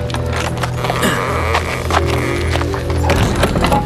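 Hooves clip-clop as a horse-drawn carriage arrives, a steady series of hollow knocks over a low continuous rumble, fairly loud throughout.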